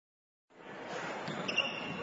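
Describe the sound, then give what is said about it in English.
Basketball bouncing during a Friday-night high school game in Utah, heard within a dense, continuous wash of court noise. It begins abruptly after a moment of silence and holds at an even level, with no single bounce standing out. “This may sound like a typical high school basketball game being played on a Friday night in Utah.”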